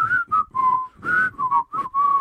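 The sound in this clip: Someone whistles a cartoon theme tune, a bouncy melody of several clear, bright notes separated by short breaths, heard on its own without any talk.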